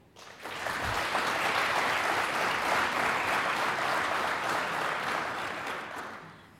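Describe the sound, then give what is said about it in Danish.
Audience applause welcoming a guest from a Danish aerospace company. A dense, even wash of many clapping hands swells in after about half a second, holds steady for several seconds, then thins slightly at the end. “Giv Thomas en stor hånd.”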